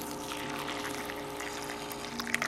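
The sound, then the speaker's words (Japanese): Hot water is poured onto black tea leaves in a steady, hissing stream over a faint tonal background, swelling into a brief louder splash at the very end. “紅茶の葉っぱに熱々のお湯”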